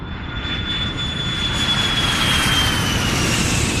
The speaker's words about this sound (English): As we taxi to the gate on this lovely sunny day here in London, we'd ask you please to remain seated.